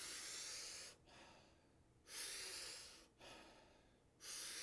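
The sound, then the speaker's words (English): Wim Hof method breathing, powerful rhythmic breaths through the mouth: loud hissing inhales alternate with softer, quieter exhales in a steady cycle of roughly two seconds, with no talking. “about 40 powerful breaths through the mouth into the body. The exhale is a soft, relaxing exhale, so it's not a full, complete exhale. Big breath in, soft exhale. We do it rhythmically, and it sounds like this.”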